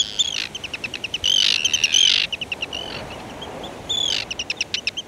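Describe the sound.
Repeated high, harsh bird calls from Arctic terns, short chirps in quick rhythmic runs broken by longer rasping screeches, fairly loud and with no talk.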